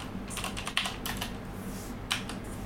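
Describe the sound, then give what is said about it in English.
Computer keyboard typing: uneven, quiet key clicks in a loose run, with a couple of sharper, louder taps standing out, and no talking. “helps if I can actually type properly.”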